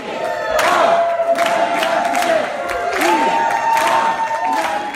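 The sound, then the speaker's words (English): Crowd chanting in a hall during the Green Party nominee's acceptance speech in Houston, the slogan "we are the 99%" rising in loud, sustained waves of many voices with a steady rhythmic pulse. “Here's the sound of Jill in Houston last week. She gave her acceptance speech for the Green Party nomination. You hear the chant in the hall, we are the 99%.”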